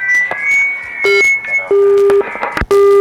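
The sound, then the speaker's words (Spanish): Beeps as a phone call cuts off: a few steady, low electronic tones of uneven length, mixed with brief clicks and crackle from the failing line. “Se corta nuestra llamada, qué terrible.”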